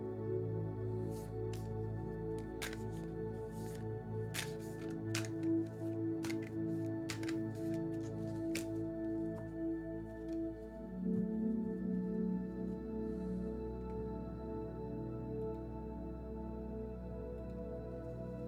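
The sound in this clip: Quiet crisp clicks and riffling snaps as a stiff deck of cards is shuffled to loosen it up, scattered irregularly over a steady low hum.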